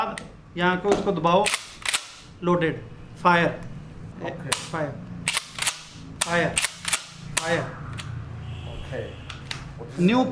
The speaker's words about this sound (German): eine Pumpgun mit 5 Patronen, die nacheinander abgefeuert werden können. Diese Waffe gibt es bei uns erst seit einem Jahr. Hier ist das Magazin und so wird damit geschossen.